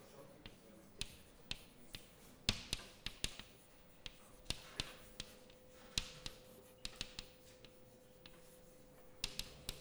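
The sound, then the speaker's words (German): Handwriting an equation during a physics lecture: many sharp, irregular taps and scratches of a writing tool against a surface, fairly faint, over a steady low hum. “Ich schreibe hierzu nochmal auf, das ist die zeitunabhängige Schrödinger-Gleichung.”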